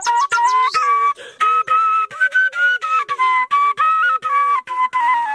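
A shepherd's flute plays alone in a village in a green valley, a bright melody of many short, separated notes with gliding ornaments between pitches.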